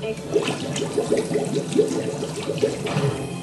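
A watery spell effect in a turn-based video game, a rehydrate water ability that restores health. It makes a steady, dense bubbling and splashing texture with quick rhythmic pulses and holds an even loudness throughout.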